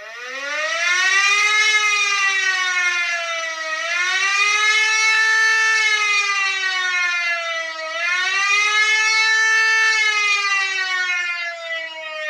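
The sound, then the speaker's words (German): A civil-defence disaster warning siren sounds alone as a loud, continuous tone that swells and sinks in pitch a few times. “Und dann haben wir noch den Signalton für den Katastrophenschutz. Das ist das mit dem Auf- und Anschwellen.”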